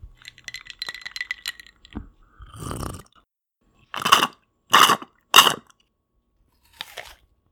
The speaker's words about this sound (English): You heard sounds of sipping water from a glass, slurping water through a straw, and crunching into an apple.